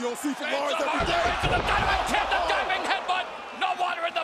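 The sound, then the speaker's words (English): A wrestler's head slams into the mat after his opponent rolls away from a diving headbutt off the top rope. The single heavy thud lands under continuous commentary. “Ohno rolls away and his head just slams dead into the mat.”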